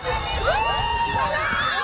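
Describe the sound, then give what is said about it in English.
More than 150 students cheer and shout at a university inter-house sports day in St. John's, a loud, brief burst of overlapping excited voices with rising and falling yells. “That's the sound of over 150 students celebrating sports and community in St. John's”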